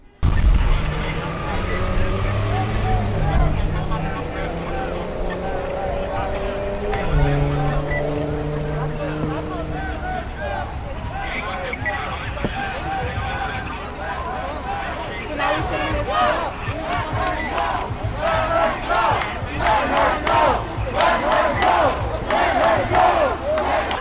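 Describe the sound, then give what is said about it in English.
Protesters shout together during an arrest at the vehicle entrance to the Manhattan Bridge, where a woman is taken to a police van. Many voices yell and chant loudly and continuously throughout, with some voices rising above the crowd. “This is audio of one of those arrests, a group of protesters on Saturday who were trying to block the vehicle entrance to the Manhattan Bridge. A white woman was arrested and taken to a police van.”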